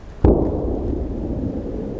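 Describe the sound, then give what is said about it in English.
Large bombs explode on the village of Orlivka, Ukraine: one heavy, sudden blast hits early, and a deep, continuous rumble follows and persists to the end. “The other light flashes from enormous bombs hitting the village of Orlivka and around.”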